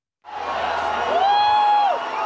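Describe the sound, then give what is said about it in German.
Cheering erupts from Lula supporters gathered on Praça São Salvador in Rio de Janeiro on election night. The crowd noise begins abruptly and holds loud, and one sustained shout rises above it midway. “Es war kurz nach 20 Uhr, als schließlich Jubel auf der Praça São Salvador in Rio de Janeiro ausbrach.”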